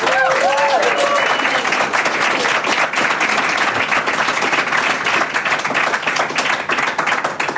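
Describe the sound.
Loud live audience applause welcoming a stage show in Pfäffikon, Zürich, a dense, sustained clapping that carries on evenly throughout.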